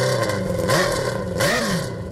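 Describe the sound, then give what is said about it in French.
A sprint car prototype engine revs loudly at a motorsport event on Réunion, a car capable of about 200–250 km/h. Its pitch swings up and back down in a couple of sharp surges over a continuous roar. “du sprint car, un spectacle bruyant et impressionnant de mécanique.”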